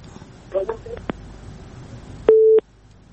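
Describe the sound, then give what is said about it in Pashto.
A telephone busy tone follows a disconnected call: one steady mid-pitched beep near the end, after a stretch of faint voices. “په هر حال اړیکه پرې ده.”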